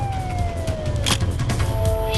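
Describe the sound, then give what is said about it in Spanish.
Police patrol cars and a police van speed around a street corner with sirens wailing. Steady high siren tones sag slightly in pitch over a rumbling traffic roar. “Aparecieron uno tras otro un par de coches patrulla y una furgoneta de la policía que doblaron la esquina a toda velocidad en dirección sur.”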